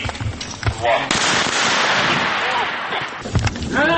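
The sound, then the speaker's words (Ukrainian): Live-ammunition gunfire during a special police battalion's hostage rescue training exercise: sharp shots and dense crackling reports that overlap into a continuous loud barrage, with a few distinct bangs at the start and end. “Як і на всіх своїх тренуваннях, використовували бойові патрони.”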